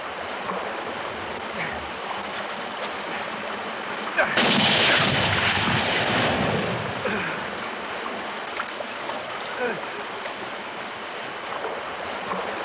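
A single loud gunshot bursts out a few seconds in, its blast holding and tailing off over roughly two seconds before a steady, noisy background returns alone.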